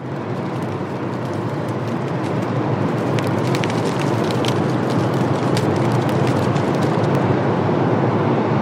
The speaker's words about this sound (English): What you're hearing is the weir. So it's water from the South Platte River coming rushing down the